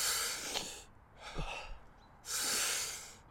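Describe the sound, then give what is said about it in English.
Deep breaths in and out, part of a breathing exercise: a few slow, airy, hissing breaths separated by short pauses, fairly quiet and heard alone. “So what you do is you take one full deep breath in and let go.”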